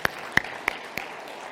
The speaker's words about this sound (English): will you guys give me a hand in welcoming these four into the church body?